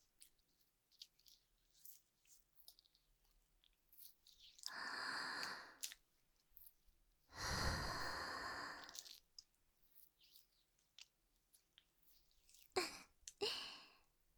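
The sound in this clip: Slow breathing in and out: two long, soft, airy breaths of a second or more each, followed later by a pair of shorter, quicker breaths, all faint with quiet gaps between and no talking.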